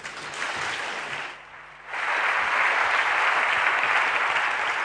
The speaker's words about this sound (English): Please give a big hand for Teresa.